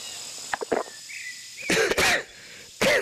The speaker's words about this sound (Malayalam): ചുമ വല്ലാതെ വീണ്ടും തുടങ്ങിയല്ലോ സർ.